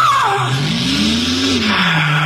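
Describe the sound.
A car drives and skids with its tires squealing loudly and continuously. The tonal screech first sweeps down, then wavers up and back down over a steady engine and road noise.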